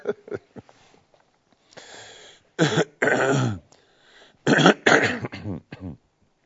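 Coughing and throat clearing from a man delivering a religious lecture: a string of harsh, rasping bursts, some short and some drawn out, separated by brief pauses, loud and with no talk over them.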